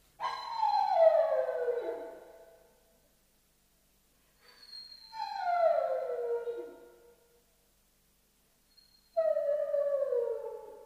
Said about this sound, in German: Warum nur heult der Hund? Wie schwül es ist. Aus irgendeinem Grunde heulen die Hunde.